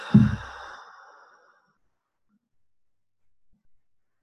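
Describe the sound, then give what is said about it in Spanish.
One slow, deep breath out through the mouth during a guided breathing exercise. It is strong at first and fades over about a second and a half, leaving near silence with only faint breath traces. “Inhalando por la nariz. Y exhalando por la boca.”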